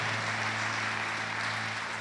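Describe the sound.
An audience applauds: steady, dense clapping that stays even in loudness throughout, with a low hum underneath and no distinct voices.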